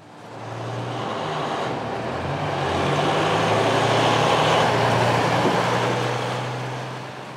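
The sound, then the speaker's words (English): Heavy cargo truck traffic rumbles at the Otay Mesa border crossing out of Tijuana, a steady, unbroken roar of engines and road noise with a low drone underneath, swelling slightly midway, with no talk. “This is the sound of Tijuana's booming maquiladora industry. The daily thunder from thousands of cargo trucks shipping goods into the U.S. through the Otay Mesa border crossing.”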